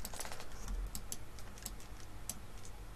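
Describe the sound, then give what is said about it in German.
Sharp, light clicks of keys being pressed on a computer keyboard, several taps spaced irregularly over a faint steady hiss, with no talk. “das hier ist auch eine komische Taste. Das ist eine Markiertaste. Mach mal, drück mal.”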